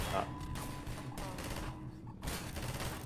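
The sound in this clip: Rapid gunfire in a video game: many dense, rough bursts of shots in quick succession, loud and continuous throughout.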